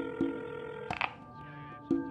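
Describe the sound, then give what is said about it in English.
A secure phone being picked up and a number dialed: a few sharp handling and button clicks spaced out over a steady, tonal background hum. “After a moment, he picks up a secure phone and dials a number.”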